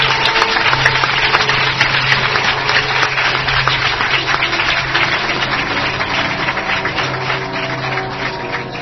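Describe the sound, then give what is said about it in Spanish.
Audience applause at a gathering devoted to mystery topics. Dense, rapid clapping carries on loudly for about nine seconds and eases off only slightly toward the end. “Un fuerte aplauso para el doctor Enrique Vila.”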